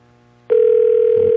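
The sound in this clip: A telephone rings with a single sustained electronic tone that starts abruptly after a short quiet moment and holds loud and steady to the end.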